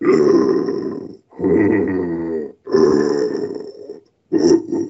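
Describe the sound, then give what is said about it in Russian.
Low, rough growling tones from a voice imitating a bear in a vocal exercise, sung on the inhale to explore the lowest range. Three long sustained growls are followed by the start of a fourth, loud and gravelly. “есть чайка упражнение, есть медведь. Медведь – это то же самое, но для того, чтобы мы отдельно еще прощупали самый свой нижний диапазон.”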